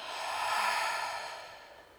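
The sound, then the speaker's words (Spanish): A single deep breath exhaled through the mouth during a guided meditation: a soft, breathy rush that swells and then fades over about two seconds, with no other sound. “Inhala por nariz. Exhala por boca.”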